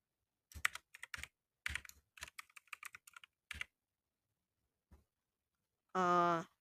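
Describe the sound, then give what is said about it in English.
Typing a username on a computer keyboard: many quick keystrokes in short clusters, then a lone tap after a pause, followed by a brief tonal sound at the end. “You can add friends with their Discord username. So you just type in”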